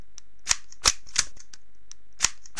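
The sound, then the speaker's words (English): Pistol being loaded, giving several sharp metallic clicks and snaps spaced irregularly, with a few louder clacks standing out from fainter ticks and no voices. “Loading the pistol”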